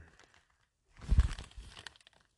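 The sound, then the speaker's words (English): Plastic bag crinkling with burning sage inside: a short burst of rustling and crackling that swells for about a second after a near-silent start, then trails off in scattered soft crinkles. “oh, I think I put this sage in this plastic bag while it's still on fire.”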